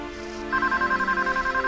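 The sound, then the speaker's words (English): A telephone rings in a kitchen with a bright electronic warble that pulses rapidly and evenly. A brief low hum comes just before it, and it sounds loud and alone. “walks across the kitchen to answer the phone”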